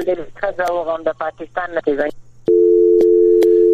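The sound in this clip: Steady dial tone after a phone call is disconnected, following a stretch of speech. The continuous low, even hum runs alone to the end, broken by a couple of faint clicks.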